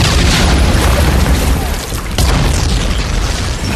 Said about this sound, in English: under a ceiling of screaming shells from Allied warships.